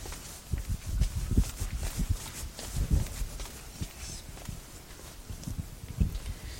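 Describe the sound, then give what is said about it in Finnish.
Quick running footsteps of a person hurrying toward an audience member during a public discussion event, a rapid series of soft, dull thuds of uneven strength, fairly faint, with no voices. “Juoksen äkkiä tuonne.”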